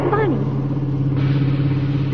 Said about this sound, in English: that sounds like he's got a flat tire.